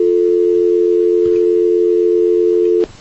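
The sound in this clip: A telephone busy tone on a call that fails to connect: a loud, steady, unbroken tone that runs for nearly three seconds before cutting off abruptly.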